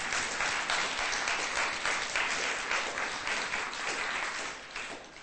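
An audience at a religious gathering applauds with dense, continuous clapping that holds steady before easing slightly at the end.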